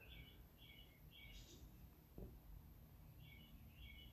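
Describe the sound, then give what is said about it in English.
A bird chirps in the morning, giving short, high, bright chirps in several small bursts at the start and again near the end. The calls are faint and sit over a low, steady background hum. “That's music. You hear that? That's pure, unadulterated music. To hear a bird chirping like that in the morning.”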